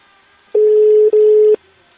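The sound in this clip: A telephone ringing tone heard during a phone call: a loud, steady single-pitched tone lasting about a second, broken briefly in the middle, then silence.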